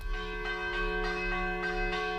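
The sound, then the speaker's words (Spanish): Church bells ring a civil fire-alarm peal at the castle of Vilamalefa in Castellón, Valencia: rapid, evenly spaced strikes repeat many times over a sustained ringing hum, steady and moderately loud with no voices. “Este en particular es un repique civil de campanas a fuego del castillo de Vilamalefa, que está en Valencia”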